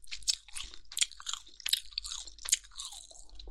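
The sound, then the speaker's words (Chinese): Chewing of chewy meat: many moist, crunchy bites and smacks in an irregular rhythm, fairly quiet, with no talk. “好吃好吃，太好吃了，好有嚼劲啊，嚼给你听听，”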